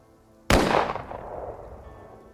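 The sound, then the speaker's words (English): Single gunshot from a fired weapon: one sharp, loud crack after a short quiet lead-in, followed by a rumbling tail that slowly decays. “And then fire my weapon.”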